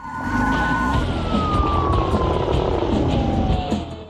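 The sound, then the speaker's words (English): A police car's siren wails over a rumbling engine as the car joins a chase, one loud, steady tone that slowly drifts lower in pitch across the whole clip. “They start their engine, turn their siren on, and join the chase.”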